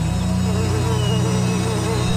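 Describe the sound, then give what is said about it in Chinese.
Honeybees buzzing as they pour out of their hives among summer flowers, a dense, continuous droning hum that stays loud and even throughout with no pauses. “勤劳的蜜蜂便倾巢而出，在花丛中忙碌地采集花蜜。”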